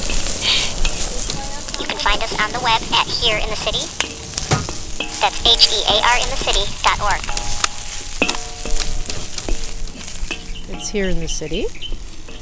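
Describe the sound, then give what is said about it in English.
Steady crackling sizzle of jalapeño chiles, garlic and sesame oil roasting over an open fire outdoors, a mile north of downtown Los Angeles in September; the hiss runs continuously with small pops while a person talks over it. “This is the sound of roasting chiles jalapeños and garlic and sesame oil over an open fire in the middle of September.”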